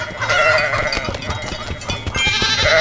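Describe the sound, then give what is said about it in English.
A goat or sheep bleats in a video game, heard as a sustained, wavering call over a dense, steady bed of game sound. “That's either a goat or a sheep, I'm not sure which.”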